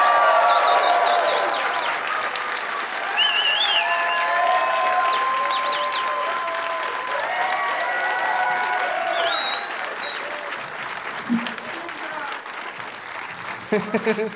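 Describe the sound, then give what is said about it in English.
Audience applause greets three guests at a live comedy show: a loud, dense wash of clapping runs throughout, with scattered voices and whoops over it and a few sharper claps near the end. “Please give it up, everybody, for Dave Shumka, Graham Clark, and Ungayo Bilum.”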